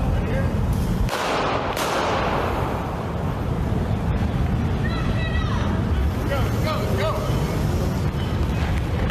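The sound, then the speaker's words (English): Gunshots as a man is shot on a street: a couple of sharp, loud reports early on, partly buried in heavy, constant wind rumble, with people's voices heard in the noise. “He just shoots the man. The man's dead. He just shot a man to death right there on the street”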